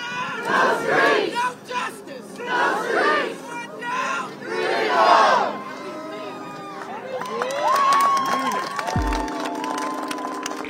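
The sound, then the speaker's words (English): A crowd of protesters at George Floyd Square screams and shouts excitedly, with many overlapping voices rising and falling in loud waves that continue throughout. “There were screams of excitement and tears of joy among the protesters.”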